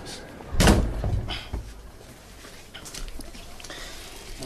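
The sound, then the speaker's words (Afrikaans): A door slams shut once with a heavy, low thud early on, followed by a few softer knocks and rustles that fade into a quiet background. “Maak toe die deur agter jou.”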